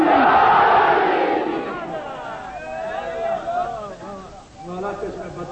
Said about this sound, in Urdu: بہت دور سے نعرہ آیا ہے میرے بھائیوں کا, پوری طاقت اور توانائی سے دونوں ہاتھ بلند کر کے میں بھی تو نعرہ کروں رضی امام بارگاہ میں, ماشاء اللہ مومنین کتنے آئے ہیں, دونوں ہاتھ بلند کر کے نعرہ حیدری.